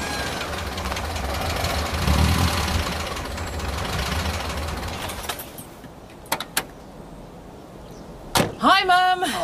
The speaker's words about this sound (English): Had a bit of trouble with the van.